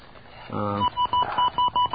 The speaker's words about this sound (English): There's a special number you can dial to find out what your long-distance company is